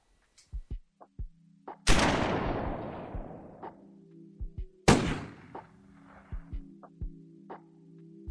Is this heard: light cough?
no